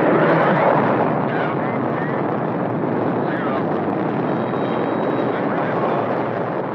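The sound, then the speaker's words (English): A U.S. Atlas rocket lifts off in February 1962 carrying the Friendship 7 capsule, making a loud, continuous rumbling roar with a dense hiss that holds steady throughout. “The liftoff of a U.S. Atlas rocket on February 20, 1962, topped with a capsule called the Friendship 7.”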